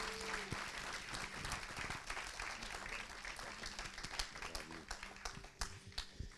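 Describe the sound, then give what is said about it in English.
Applause from a house church audience welcoming a speaker on a Sunday morning: dense, steady clapping fills the whole stretch, with a few sharper claps standing out near the end. “Let's give him a big hand as he comes this morning.”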